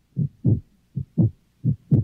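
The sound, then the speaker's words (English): A frightened, terrified heart beats in three low, thudding lub-dub pairs, six dull thumps in a steady, fairly quick rhythm, loud and alone with brief silent gaps between each double beat. “Do you hear that sound? It's the sound of a heartbeat. A frightened, terrified heart.”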